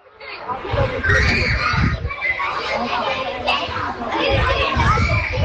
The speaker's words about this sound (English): That sound you can hear is children laughing and playing in the playground at St Patrick's National School.